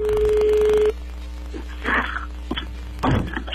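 A telephone dials a number: a steady electronic tone holds for about a second, then cuts off, followed by faint scattered clicks and noises.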